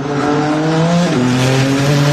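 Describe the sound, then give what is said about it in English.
Race cars roar around a street circuit laid out in Washington DC for the Freedom 250 Grand Prix. A loud, steady engine whine with strong harmonics holds throughout, then its pitch drops sharply about halfway through. “It is race day in the district. The Capitol streets turned into a racetrack for the Freedom 250 Grand Prix.”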